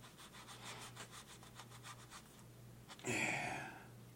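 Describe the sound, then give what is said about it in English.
A knife slices through silicone sealant in many quick, even scraping strokes. After a short pause, one louder, brighter rasp follows. “And when cutting silicone, just slice.”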